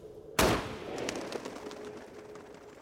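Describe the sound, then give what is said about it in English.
A single loud rifle shot rings out at a camp in the Rocky Mountains, a sharp crack followed by a long decaying rumble that fades over the next two seconds. “fires off the last rounds of his gun, just in case anyone is anywhere nearby”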